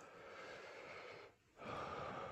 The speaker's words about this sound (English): Bring your arms by your side. And just take a couple breaths into your belly.